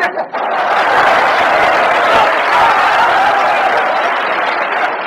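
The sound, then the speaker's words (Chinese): A theatre audience applauds during a stage comedy sketch. Thick, loud clapping swells in after a brief opening and continues unbroken to the end. “从观众的掌声就可以看得出来，对你寄予极大的希望。”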